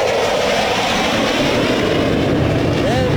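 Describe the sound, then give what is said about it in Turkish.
Loud, steady jet roar from the Solo Türk aerobatic jet approaching at high speed during an air show. A dense, rushing blast fills the whole clip, with a brief whistling tone near the end. “yüksek süratle bize doğru geliyor şu anda Solo Türk karşısında.”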